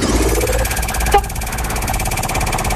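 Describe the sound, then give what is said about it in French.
A game-show prize wheel spins with rapid, regular ticking that runs without a break. A single louder knock lands near the middle. “Allez, on lance la roue, c'est parti, c'est vous qui l'arrêtez.”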